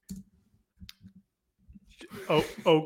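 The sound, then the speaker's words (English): A name is typed on a computer keyboard, a few light, quick key clicks spread over the opening seconds, followed by a person talking. “You have your computer in front of you right now? I do. I absolutely do. Okay, so type his name in and then type in just the letters UMBC.”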